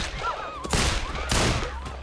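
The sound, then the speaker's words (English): Two loud, sharp revolver gunshots ring out about half a second apart. Each one is a sudden broad blast that decays into a brief ringing tail. “She reaches for the revolver and shoots the prince's companions.”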